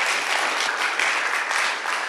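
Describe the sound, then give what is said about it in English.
Audience applause for a person who has just shared a testimony at a gathering. Dense clapping from many hands, fairly loud and continuous throughout. “Should we give him a round of applause again?”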